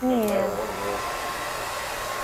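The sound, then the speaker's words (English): A hair dryer blows loudly and steadily, a broad rushing whoosh with a high motor whine that holds at constant strength for the whole clip. “And I don't want the mic to pick. Oh, I want her to keep blow drying.”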